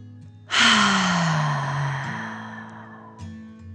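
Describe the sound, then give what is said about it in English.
A deep breath in and out during a guided bedtime relaxation for children, heard as one long, loud, breathy sigh with a low voiced tone sliding down in pitch before fading, over a quiet steady background. “Okay, deep breath in and out.”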